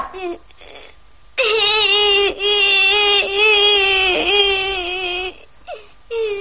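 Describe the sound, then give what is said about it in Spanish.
Loud, sustained wailing and sobbing begins after a second or so of quiet breathy sounds. The cry holds a high, quavering pitch with a few short breaks, then drops back to soft whimpers. “Deja ya de llorar, eso no soluciona nada.”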